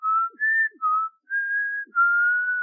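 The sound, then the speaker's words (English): Whistling credited to a ghostly resident spirit, a sad, out-of-tune tune of several clear held notes separated by brief gaps, stepping between higher and lower pitches, heard alone. “One resident spirit is known as the Whistler.”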